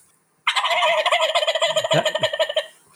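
A turkey gobble imitated with a diaphragm turkey call: a loud, rapid run of many warbling pulses lasting about two seconds, sounding on its own after brief quiet.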